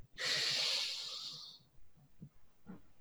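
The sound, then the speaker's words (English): A single long inhale through the nose, paced over a count as part of a breathing exercise, heard as a breathy hiss lasting about a second and a half before fading into near-silence. “do an inhale through the nose for 4 seconds, hold for 5, and then exhale for 7. And so let's start this. So inhale for 4.”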